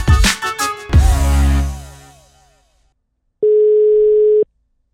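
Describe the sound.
A telephone tone sounds while a call is placed: one steady, even beep lasting about a second, heard alone after earlier talk fades into silence.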